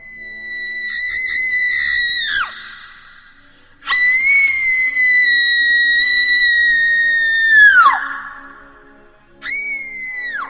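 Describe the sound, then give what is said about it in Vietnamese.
Mournful, shrill scream of a young woman: three long, high wailing cries, the first two each sliding downward at the end and the last cut short, alone with no talk. “Đột nhiên xuất hiện tiếng hét ai oán đến giận người. Tiếng hét ấy giống như là của một người con gái trẻ, nhưng cũng chẳng rõ là phát ra từ đâu.”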